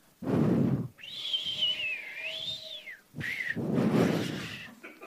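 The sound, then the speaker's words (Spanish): A person imitates the whistling wind of an ordinary cyclone, blowing breathy whooshes around a long, wavering high whistle that rises and falls. “Lo que diferencia a un ciclón normal de uno tropical es que el normal suena así.”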